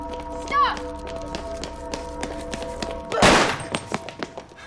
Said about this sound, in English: 1071, shots fired!